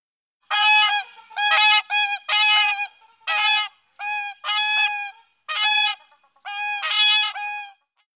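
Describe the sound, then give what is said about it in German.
Whooper swan calling: many loud, brassy, trumpet-like honks in uneven bursts, some single and some run together in quick pairs, with brief silences between. “Der Singschwan macht ja jeder Trompete Konkurrenz.”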